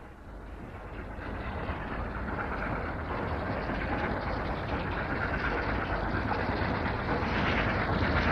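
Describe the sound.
Steady rushing rumble of a passenger mail train's wheels on rails, a continuous loud clatter that swells slightly and holds for several seconds with no talk.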